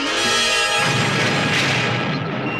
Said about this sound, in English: The alien vessel makes another pass, and the bridge rocks.